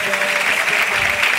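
Audience clapping along at a devotional chanting gathering honoring Zaynab: a dense, steady patter of many hands held at an even loudness, with a faint sustained tone underneath.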